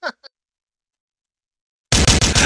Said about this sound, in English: Okay, that's enough gunshots, man.